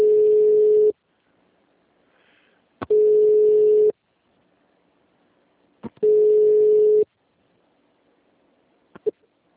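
Repeating telephone tone while a call is transferred to an agent: three loud, roughly one-second buzzing bursts separated by longer pauses, with faint clicks in the gaps.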